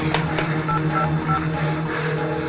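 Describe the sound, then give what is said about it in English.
Someone dials a telephone to place an emergency call. A few short tones and soft clicks sound over a steady low hum. “He picks up a phone and dials.”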